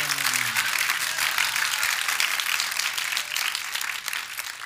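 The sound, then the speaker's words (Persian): Sustained applause from a crowd asked to clap in honour of Imam Ali, dense and even clapping throughout, moderately faint with no clear break. “بهتر یه دست خوشگل بزن بر امیرالمومنین.”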